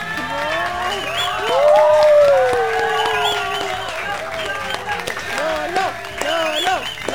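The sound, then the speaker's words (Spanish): Applause and cheering from a festival audience welcoming a new singer, the clapping forms a steady bed under prominent high, wavering vocal shouts that swell loudest near the start. “Un fuerte aplauso para él.”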